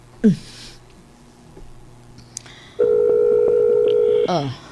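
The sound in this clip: A telephone tone sounds while a call is being placed: a steady, mid-pitched electronic tone holds evenly for about a second and a half, following a stretch of quieter low hum and a few faint blips.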